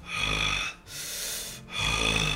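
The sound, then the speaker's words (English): A voice imitates the heavy, ferocious panting of a raging horned creature. It gives three long, loud, raspy breaths, each separated by a brief gap, with no other sound. “you hear the panting of everybody. Everybody hears the panting of Wes”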